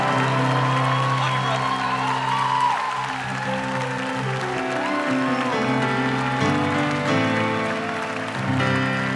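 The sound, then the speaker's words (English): Congregation applauding and cheering as a pastor comes up to bring the word, with a few whoops over sustained music. The broad, steady wash of clapping continues throughout. “Why don't we stand to our feet, all locations? Man, let's put our hands together. Let's welcome Pastor Tim as he comes to bring the word.”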